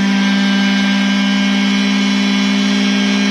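A car engine held at wide-open throttle gives a steady, loud roar, one sustained drone that keeps the same pitch and volume throughout with no breaks.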